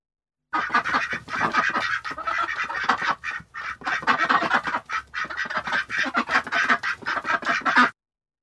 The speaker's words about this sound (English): Duck.